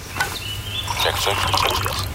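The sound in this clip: Coffee is poured into a cup: a short liquid splash and trickle whose pitch rises as the cup fills, heard under a voice.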